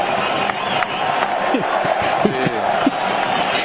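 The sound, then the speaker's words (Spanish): Football stadium crowd roaring and cheering in the stands during an Ecuador match, a dense, steady wall of massed voices with brief swells and shouts rising out of it. “El público empuja en la tribuna.”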